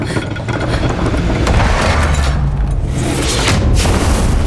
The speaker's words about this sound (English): They've blown the entrance.